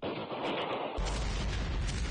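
Explosives detonate at a valley entrance, bringing boulders and dust crashing down. A noisy rumble gives way midway to a loud, deep, sustained roar that holds to the end.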